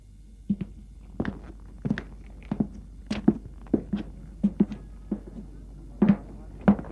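A woman's footsteps as she walks outside in a drama scene: many soft, fairly even heel-and-toe steps with occasional doubled taps, alone against quiet surroundings.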